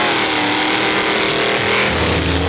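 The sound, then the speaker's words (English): A drag racing car's engine roars loudly and steadily at a championship drag racing event at Toronto International Dragway, a dense, continuous scream with no breaks. “the scream of the engine over the crowd's roar, and the streamlined needle of man and machine hurtling down an asphalt track at 200 miles an hour”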